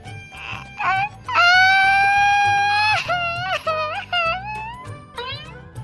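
A person cries loudly in a comedy sketch, with several drawn-out wailing sobs that bend in pitch, some long and sustained, some short and broken.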